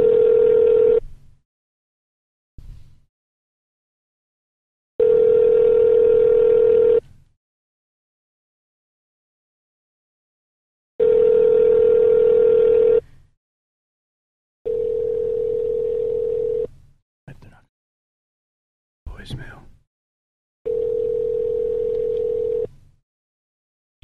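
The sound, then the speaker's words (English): Telephone line tones while dialing: five long, steady buzzing tones of about two seconds each, separated by silent gaps, with a few brief clicks and blips between them. “Okay, I'm dialing.”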